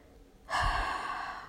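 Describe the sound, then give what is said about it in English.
A single long, steady breath from someone following a guided breathing exercise, starting about a third of the way in and holding a soft, airy rush at even loudness until the end, with no talking. “Take a breath in and notice what the body feels like. And breathe out.”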